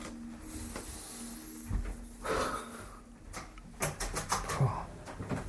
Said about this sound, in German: Ich muss mal das Fenster aufmachen, so stickig hier.